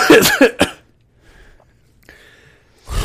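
Coughing after inhaling a Red Bull energy drink: a few harsh, loud bursts at the start, then near silence, and another rough burst at the very end.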